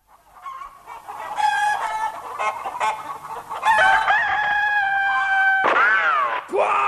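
Chickens cluck and a rooster crows, with layered, harmonic bird calls throughout and loud, sweeping crows near the end, heard alone without talk.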